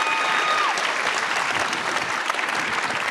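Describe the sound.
Audience applause welcomes actor and opera director Christoph Waltz at a post-concert talk: dense, steady clapping from many hands holds at an even level throughout, with no voices standing out.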